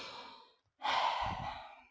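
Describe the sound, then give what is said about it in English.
Slow, deep breathing during a guided relaxation exercise: a trailing breath fades out, a brief pause follows, then a long, louder, airy sighing breath swells and gradually tapers off, with no talk. “I want you to breathe in through your nose. Let the air out through your throat. One more time. And one more time.”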